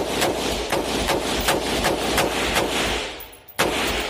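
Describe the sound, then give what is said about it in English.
Rapid gunfire from an AR-15 semi-automatic rifle: loud, sharp shots crack in a steady series about every third to half second over a dense, continuous rumble. A brief lull near the end is followed by one more hard report. “This is what an AR-15 sounds like.”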